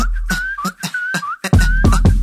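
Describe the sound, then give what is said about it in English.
A person whistles a steady, clear melody over a regular drum beat with deep bass hits, and the beat grows louder about halfway through. “I walk down the street whistling this.”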